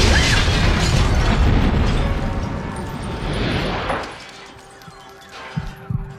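Bomb explosion in a TV scene: a loud, broad roaring rumble that holds for about four seconds, then fades into a quieter tail with a few faint thuds near the end.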